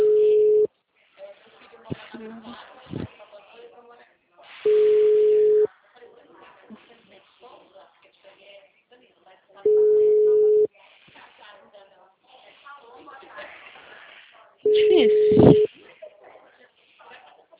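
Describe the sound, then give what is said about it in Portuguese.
Ringback tone of an unanswered phone call: four long, steady mid-pitched beeps, each about a second, spaced roughly five seconds apart, with talk and background noise in the gaps. “Eu tô ligando agora, mandou ligar 4h30, não me atende lá.”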